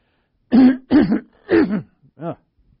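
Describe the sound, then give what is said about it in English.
A person clears their throat to bring up phlegm: four raspy, voiced bursts in quick succession, the last one shorter and lighter. “So while I get my phlegm out”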